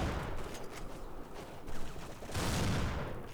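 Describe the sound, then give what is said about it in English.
Dense video-game gunfire, a continuous rattle of rapid overlapping shots that stays loud and steady throughout with only slight swells in intensity. “would you stop shooting me?”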